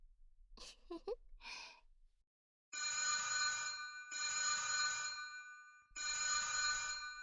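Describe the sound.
A telephone rings during a family conversation in Japanese, with three long, loud electronic ring bursts of bright, steady buzzing tones, one after another and separated by very short gaps.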